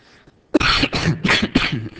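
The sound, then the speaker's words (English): A person coughs in a quick run of several harsh, throaty bursts after a moment of near-silence, loud and on their own. “you're going to have to turn the mic off when I cough”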